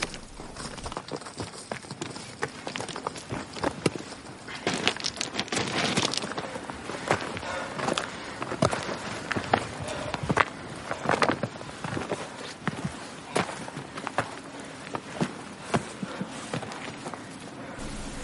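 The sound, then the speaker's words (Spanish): Footsteps of several people hiking up a rocky slope, with many crisp, uneven steps in an irregular rhythm throughout. “Ven la ventaja que les llevan sus amigos y siguen caminando.”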